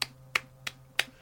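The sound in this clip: Four crisp finger snaps imitate clapping in a deathcore song breakdown. They are evenly spaced about a third of a second apart, each a sharp bright click over a faint steady low hum, with no voices.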